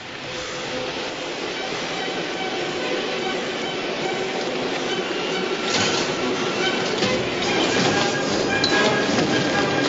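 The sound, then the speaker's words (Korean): A moving subway train gives off a steady, loud rumbling roar with rattling clatter, growing slightly stronger toward the end, heard from inside the running car. “달리는 지하철 안에서 칼리토는 또 달립니다.”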